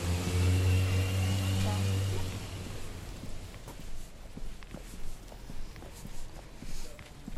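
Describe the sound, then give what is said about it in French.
A train passes near the Gare du Midi station: a loud, low rumble with a steady droning tone for about two seconds, then it fades and leaves quieter, uneven background noise. “On voit déjà le train passer. Ouais. On est tout près de la gare du Midi, en fait.”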